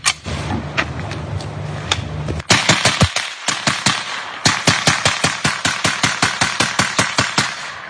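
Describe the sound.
A machine gun fires a long sustained burst of rounds, many loud, sharp shots in a fast, even rhythm with hardly any pause between them.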